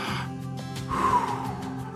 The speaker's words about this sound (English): So let's take a couple of breaths.